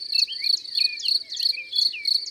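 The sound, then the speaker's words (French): Field crickets chirp in the grass of a meadow at the edge of a wood on a sunny June morning, making a regular series of about seven high-pitched, trilling pulses in a steady rhythm, with no voices. “Dans l'herbe, au soleil, on entend des dizaines de grillons qui stridulent, un peu comme s'ils agitaient des petits grelots. C'est le grillon des champs”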